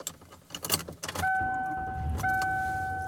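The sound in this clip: A car being driven, with clattering at the start that gives way to a steady low rumble and two sustained, even hum tones that run to the end.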